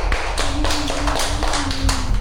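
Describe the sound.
Hand clapping for a young child at a group gathering of children: a quick, uneven run of many sharp claps, fairly loud and sustained for about two seconds.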